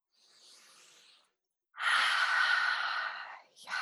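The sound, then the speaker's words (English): A very big deep breath: a soft, long inhale, then after a short pause a loud, drawn-out, sigh-like exhale, with the start of another breath at the end. “I just took a very big deep breath”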